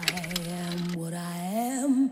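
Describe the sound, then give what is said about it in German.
Coins clink into a jukebox-like machine in a few quick metallic taps, then sustained musical tones begin and continue steadily. “Münzen rein, Knopf gedrückt.”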